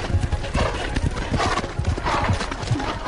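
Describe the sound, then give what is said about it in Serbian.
Horses gallop with quick, rhythmic hoofbeats that thud steadily throughout. Many clear hoof strikes repeat at an even, driving pace. “Prosti obodoše konje i opet je sustigoše.”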